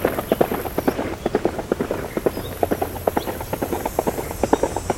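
Hoofbeats of a horse cantering during a warm-up at a riding exam, many rhythmic thuds in a steady rolling pattern, loud and clear with no talk.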